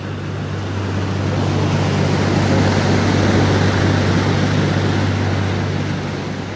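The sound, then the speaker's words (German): Steady engine drone and broad rumbling wash of a boat travelling under a bridge on a canal in Hamburg, a continuous low hum that stays even throughout, slightly louder in the middle, with no talk. “Wir fahren jetzt unter einer der vielen Brücken hier in Hamburg durch und kehren um Richtung Elbe.”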